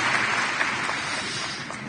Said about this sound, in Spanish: Démosle un aplauso a Jesús.